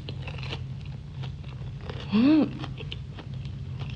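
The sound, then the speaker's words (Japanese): Biting into thick, crispy fried tofu (Tochio abura-age) gives a few faint, crisp crunches, quiet overall with one brief louder moment midway. “こちらにはとちおの油揚げをご用意いただきました。もう厚みがありますね。 そうですね。 早速食べてみてもいいですか。 はい、どうぞ。 いただきます。”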